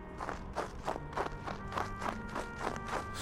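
Footsteps of people running down a narrow snowy alley: a quick, steady rhythm of many soft thuds at an even pace, without speech.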